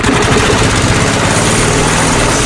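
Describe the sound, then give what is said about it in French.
A lawn mower engine runs with a loud, steady, rough drone and a throbbing low hum. The noise does not vary for the whole stretch. “Marre de tondre ? Tondeuse des 299€, autoportée des 1499€ et robot tondeuse à partir de 1199€.”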